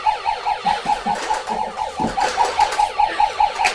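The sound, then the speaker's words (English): A police car siren sounds as a fast, continuous string of high electronic pulses at a steady pitch, repeating evenly throughout with no voices. “No, he's running away from the police car.”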